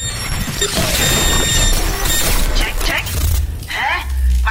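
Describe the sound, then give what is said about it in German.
A radio-drama electric shock blast that knocks pirates down and throws a man backward: dense, loud crackling and buzzing with whining tones that lasts throughout, with voices heard over it. “starker Elektroschlag und die Piraten fielen sofort um. Ich bekam eine kleinere Dosis der Elektrowelle ab und es schleuderte mich nach hinten.”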